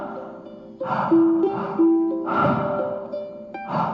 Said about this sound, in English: Nice, big, full, deep breath. Filling your lungs up with pure life force energy.